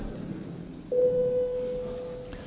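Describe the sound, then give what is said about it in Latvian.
A parliament chamber bell sounds before a vote as a single sustained electronic tone. It starts abruptly and holds steady and fairly faint over the room's background hum until the end. “Lūdzu zvanu. Balsošanas režīmu.”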